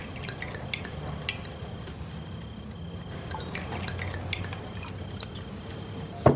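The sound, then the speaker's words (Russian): Cognac poured into shot glasses: a soft, quiet trickle of liquid with faint drips, steady throughout with no talk. “Гоцман наливает коньяк в рюмки. Сначала Норе, потом себе.”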